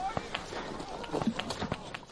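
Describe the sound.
Running footsteps pound along in quick, steady succession, with many sharp, fairly loud footfalls following one another at an even pace for the whole stretch.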